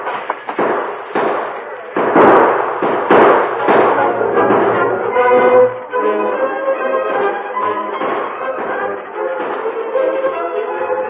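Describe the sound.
Gunfire exchange as armed men open fire on a masked man at a window: a few sharp, loud shots burst out in the opening seconds, followed by a dense, continuing din of further reports.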